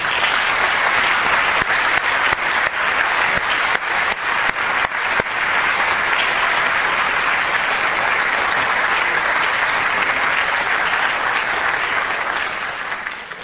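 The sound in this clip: Applause from a lecture audience welcoming Craig Venter to Princeton for a talk on sequencing the human genome: steady, dense clapping that holds for about thirteen seconds before thinning slightly at the end.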